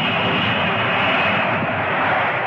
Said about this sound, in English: Later, the Thrust Industries plane taxis at an airport.